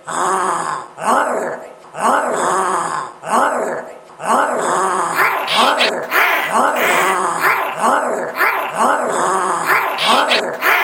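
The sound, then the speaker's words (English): A human voice imitates a monster with loud, rasping groans and growls. The phrases are repeated in a steady rhythm, each one a rough, wavering moan with cracking, strained tones. “If you've ever tried to sound like a monster,”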